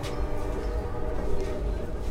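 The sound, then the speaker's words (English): A train rumbles by outside a Union soldier hospital, making a steady, loud, low rumble with a continuous mechanical drone that stays even throughout. “A train rumbles by as I walk outside a Union soldier hospital.”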